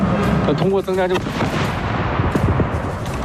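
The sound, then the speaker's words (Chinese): Artillery fire booming from across a mountain during a military vehicle training drill with staged explosions and smoke: a dense, continuous roar with a few sharp reports breaking through near the end. “大家可以听到这个山这边传来这个炮声啊”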